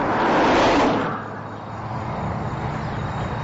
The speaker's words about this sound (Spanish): Coches y camiones circulan por la carretera.